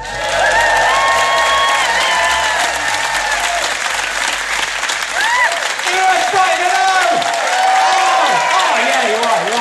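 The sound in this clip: A theatre audience at the Brighton Theatre Royal applauds and cheers a comedian's entrance with loud, sustained clapping, dense and even throughout, with whoops and shouts rising above it.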